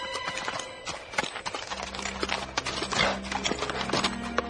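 Horse hooves clip-clop as a rider arrives, a rapid, uneven run of moderately loud hoofbeats continuing throughout.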